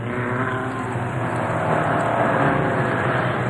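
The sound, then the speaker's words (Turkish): Car engine roaring at full throttle during a chase on a road beside a cliff, with another car ramming from behind; a loud, sustained, steady drone with a dense rumble throughout. “Sıkı tutun baba. Sonuna kadar gaz veriyorum.”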